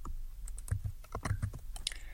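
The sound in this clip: Code being typed on a computer keyboard: a dense, steady run of sharp, irregular keystroke clicks with barely a pause, fairly loud and with no voices.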